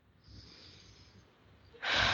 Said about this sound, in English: So slow down, right now. Take a deep breath, everyone.